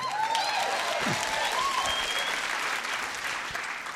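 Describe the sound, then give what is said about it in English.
A Portland audience gives Barney Frank a standing ovation, a dense, sustained burst of clapping with a few scattered cheers, loud and steady before tapering slightly at the end. “we'll tell everybody out there in Radioland that that was a bona fide Portland standing ovation for, for Barney Frank.”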